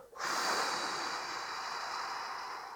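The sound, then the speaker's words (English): A long exhale during a guided breathing exercise, heard alone as a continuous airy rush of breath. It starts abruptly, then holds steady and eases off only slightly toward the end. “just on your next exhale, just exhale all the way out”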